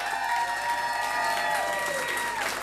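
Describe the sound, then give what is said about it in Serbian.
Sustained applause from a concert audience for the musicians at a club tribute show: a dense, even roar of clapping throughout, with faint held tones underneath. “zaslužuju još bar još jedan ogroman aplauz”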